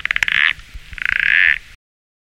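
Frog croaking in two rapid, pulsed trains, the first short and the second longer, each a loud rattling series of croaks with no other sound.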